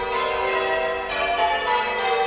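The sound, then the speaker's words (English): Ringing of a peal of six church bells in a war memorial bell tower. Overlapping metallic tones sustain loudly and evenly throughout, with no talk. “there's definitely music in the patterns of the bells and the different patterns that the bells make throughout the length of the peel.”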